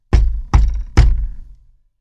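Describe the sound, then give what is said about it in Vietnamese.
Three heavy knocks on a door, evenly spaced, each a loud dull thud that dies away quickly, with no voices. “Một lúc sau, có tiếng gõ cửa.”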